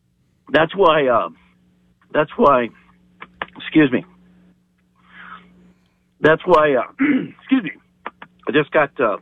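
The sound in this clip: Someone clears their throat after swallowing wrong, making harsh, voiced rasps in short clusters separated by brief pauses, over a faint steady hum.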